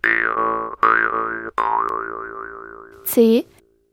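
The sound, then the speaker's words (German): Jew's harp twanging in a few phrases with a wavering, vowel-like pitch that the player shapes with the mouth, ending in one short, sharp boing. “Der Mund ist der Resonanzkörper, also wie bei einer Gitarre der Gitarrenkörper. Eine Maultrommel klingt so.”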